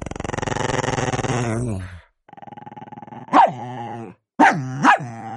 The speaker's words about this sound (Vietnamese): Chó bự sủa càng dữ hơn.